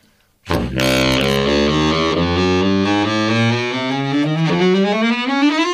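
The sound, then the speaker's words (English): A baritone saxophone climbs through its normal range, from about the second C on a piano up to an A flat. One loud, reedy, buzzy sustained line rises steadily over several seconds, played alone. “So the main range of a saxophone is 2.5 octaves. And so in my case, it extends from like the second C on a piano up to an A flat, and it sounds like this.”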